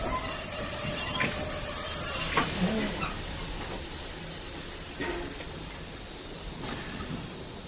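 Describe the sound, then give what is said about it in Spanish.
A train pulls into a station and comes to a stop, its wheels squealing shrilly over a rolling rumble. The noise gradually settles and softens as the train halts. “Un tren se detiene en una estación.”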